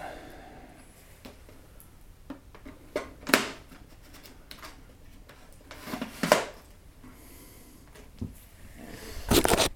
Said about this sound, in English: Let me just put the mic down while I put the film holder in. Hang on a sec. So just fold that away.